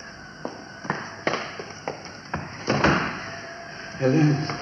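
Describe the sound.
A door being opened, heard as a series of sharp clicks and clunks at irregular intervals over a low hum. A brief voice comes near the end.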